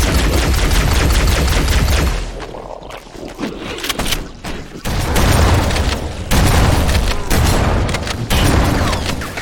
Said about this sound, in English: Someone's shooting down this hallway.